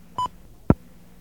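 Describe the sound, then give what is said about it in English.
A single short telephone keypad tone sounds as 0 is dialed, followed about half a second later by a sharp click, with no voices. “So I guess I have to dial 0.”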